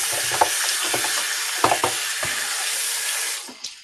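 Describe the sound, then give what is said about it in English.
A spatula stirs a thick topping meant as a spread, giving several soft scrapes and knocks over a steady hiss. The hiss fades near the end, followed by a last light tap. “You're mixing the topping. Oh, it's all done. It's already. It's in my um, right here. My spatula is in it.”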